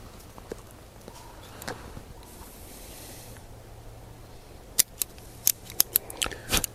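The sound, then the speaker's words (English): Crisp snipping clicks of a cutter trimming an inexpensive Connecticut-wrapped cigar, a quick series of sharp clicks bunched toward the end after quieter fumbling. “I guess I should probably cut it. Might help. For a uh, inexpensive cigar, it is very tasty.”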